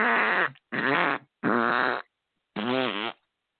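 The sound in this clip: Four fart sounds, loud and buzzy, each lasting around half a second, with a longer pause before the last one. No voices accompany them.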